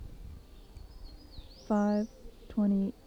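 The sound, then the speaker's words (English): A bird calls outdoors behind a building in the early morning: two loud, short, buzzy harmonic calls are separated by a brief pause, over quiet background and faint high singing. “Bird was about 40 feet away from me.”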